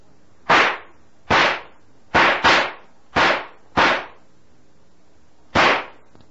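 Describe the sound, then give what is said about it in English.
Seven sharp gunshots fired at a rattlesnake ring out in an uneven series, including a quick double, each loud crack decaying briefly into silence. “Stand back, kid. I'm going to have to shoot it.”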